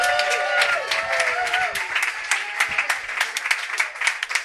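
Audience applause at a comedy show: a burst of clapping with a rising cheer or whoop at the start, thinning into scattered, irregular claps toward the end.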